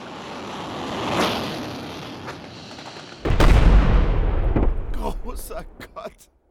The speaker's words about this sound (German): Luftschlag erfolgreich ausgeführt.